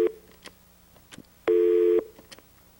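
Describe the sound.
A telephone busy tone after a caller's line disconnects: a steady mid-pitched beep, with a brief fragment at the start and one clear half-second tone later, over a faint hum and no talk.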